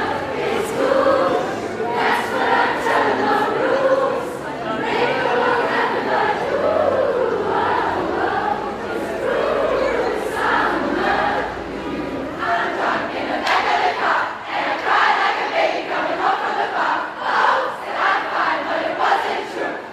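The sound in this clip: Dense crowd din fills the Corneliusgasse street, a steady, loud wash of many overlapping voices with no single speaker standing out, holding at a constant level for the full twenty seconds.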